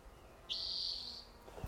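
A bird call: one thin, high whistled note held for under a second at a steady pitch, quiet and alone against faint background noise.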